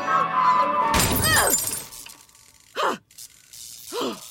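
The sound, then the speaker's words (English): A speaker being smashed: a loud, shattering crash of breaking parts, then two separate heavy thuds after short pauses. “When technology lets you down, smash the obvious bit. We're lucky there was just one speaker.”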